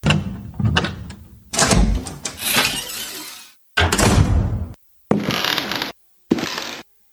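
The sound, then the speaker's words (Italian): A house door opens in a run of scraping, rattling bursts of varying loudness, each followed by a short silence. “La porta di casa è aperta. Io provo a entrare.”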